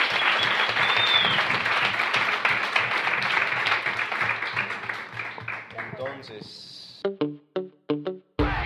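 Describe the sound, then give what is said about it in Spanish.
Audience applause at a cultural festival discussion: dense, sustained clapping that gradually thins and fades, followed by scattered claps and people talking. “yo creo que nos merecemos un gran aplauso por este espacio que estuvimos cultivando.”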